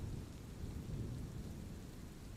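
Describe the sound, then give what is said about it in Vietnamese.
Rain falling outside with rolling thunder: a steady, faint wash of rain noise over a low, continuous rumble, with no voices. “Mưa bên ngoài vẫn không có dấu hiệu dừng lại. Sấm rền sáng cả một vùng trời,”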